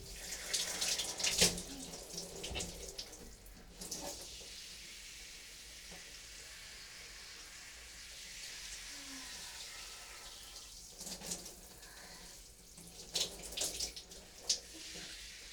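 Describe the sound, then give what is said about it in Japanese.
Shower water rinses conditioner out of hair in a cramped, echoing hotel bathroom, making a soft hissing splash. The water is faint and comes in uneven bursts, louder near the start and end, with no talk. “今リンス流してます。”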